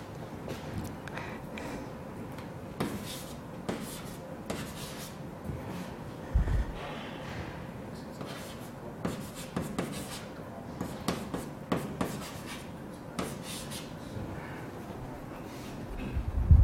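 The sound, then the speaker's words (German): Faint handwriting, as a physics formula is written out by hand: irregular light scratches and small taps, sparse and quiet, with a few slightly firmer strokes. “Und ich schreibe das mal mit diesem Chi gleich hin.”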